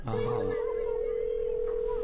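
A telephone dial tone while phoning someone about a gate that is not being opened: a single steady, unbroken mid-pitched tone that starts almost at once and holds evenly for about two seconds over low background noise.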